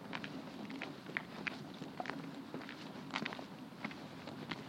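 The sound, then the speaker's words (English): Footsteps walking along a road, a steady run of many soft, even steps at a faint level with no talk over them. “Okay, we're walking in the road now.”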